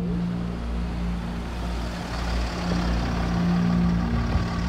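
A car drives away with a continuous low engine rumble and road hum. The sound holds fairly steady in loudness throughout, with no voices.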